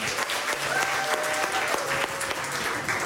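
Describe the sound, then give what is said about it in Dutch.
A studio audience applauds as a guest arrives, making dense, sustained clapping that holds at an even level throughout with no break. “Welkom, een groot applaus voor Stephanie Laurier.”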